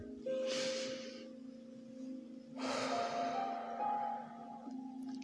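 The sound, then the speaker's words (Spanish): Slow, deep breaths drawn in and let out through the nose during a guided meditation: two soft, airy breath sounds, the second longer, over a quiet steady musical tone. “Inhala por la nariz exhala por la nariz. Inhala por la nariz. Exhala por la nariz.”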